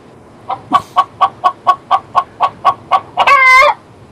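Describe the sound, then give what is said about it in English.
A chicken clucks in a rapid, evenly spaced series of about a dozen sharp clucks, loud and alone, ending in a longer, harsher squawk. “How violent the chicken is, too.”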